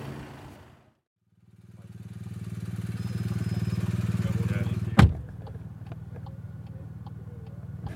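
A car door bangs shut once as a cyclist gets out of a team car during a women's stage race, following a low, steady engine hum; faint light clicks tick on afterward.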